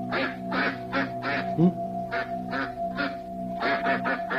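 Duck quacking in a rapid series of short, nasal calls, many bursts in quick succession with brief gaps, over a steady tonal hum.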